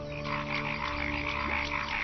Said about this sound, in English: It's the mating season, and male paddy frogs are competing for the attention of the females.